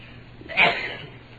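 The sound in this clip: A single sudden sneeze from someone at a religious lesson bursts out once, sharp and breathy, then trails off against a quiet, low background hum.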